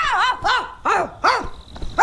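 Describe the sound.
A person imitates a dog barking during a fight, voicing several loud, arching, yelp-like barks in quick succession.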